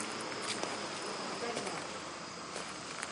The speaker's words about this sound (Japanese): セミが鳴いてるのに秋の虫も鳴いてるという変なミックス感がいいですね。